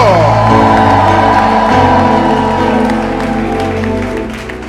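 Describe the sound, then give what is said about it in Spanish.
An audience shouts and cheers with joy during a church service, with loud, sustained crowd noise and scattered applause that carry steadily before easing off slightly at the end. “Alguien grite aleluya. Alguien de un grito de júbilo.”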